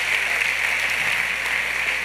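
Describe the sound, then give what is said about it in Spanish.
Audience applause, a steady, hissy wash of many hands clapping together that holds an even level without distinct separate claps. “¿Por qué no le damos un aplauso a Dios por eso?”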